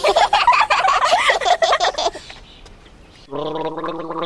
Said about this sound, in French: Ah non, je me gargarisais